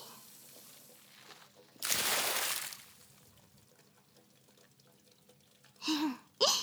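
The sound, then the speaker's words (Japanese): Hot water poured to rinse someone off in a bath: a splashing gush of about a second, then quiet, then another brief splash at the end. “それじゃあお湯で流しますね。”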